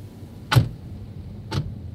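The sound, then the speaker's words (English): Two solid thunks of doors on a Forest Service Jeep as people pile back in, about a second apart, over a low, steady rumble. “We pile back into the Forest Service Jeep and head just a few minutes down the mountain to a completely different ecosystem.”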